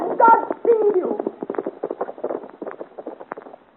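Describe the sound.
Horse hooves of a rider passing: many rapid clip-clop beats in a steady galloping rhythm that gradually fade, with brief voices at the start.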